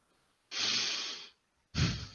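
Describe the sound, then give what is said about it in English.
A deep breath drawn in for most of a second, then a short silent hold, then a quicker, breathy exhale; airy and fairly loud, with no talking. “Quinn takes a big breath in and holds it for a second and lets it out”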